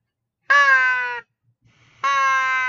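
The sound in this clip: Two loud, harsh caws from a crow call blown during spring turkey hunting to provoke a shock gobble. Each caw is long and buzzy, and a short pause separates them. No talk.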